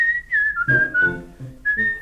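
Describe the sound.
A melodic whistle opens the theme tune of a crime series: a clear, high, steady tone that dips slightly across a few notes, then returns to the starting pitch.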